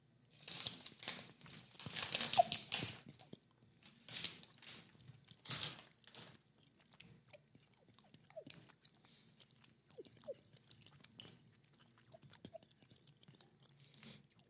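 Crunching and chewing of a citrus, lemon and rose flavored candy, with several loud crisp crunches over the first six seconds, then softer, sparser chewing and small clicks.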